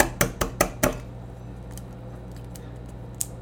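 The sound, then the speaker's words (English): Eggs cracked into a bowl make four sharp, bright taps in quick succession within the first second, followed by near quiet with only a couple of faint small clicks later on. “I gotta beat these eggs. Mm-hmm. Or not beat them, crack them. Yeah. I'll beat them. First you crack them, then you beat them.”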